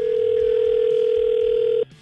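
Steady telephone dial tone at a single unbroken pitch, heard while calling a listener, holding for nearly two seconds before cutting off abruptly.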